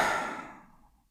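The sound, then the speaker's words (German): A deep breath out through the mouth, heard as a single breathy, sigh-like exhale that starts strong and steadily fades away over about a second, with no talking. “Jetzt atme einmal tief ein durch die Nase und aus durch den Mund.”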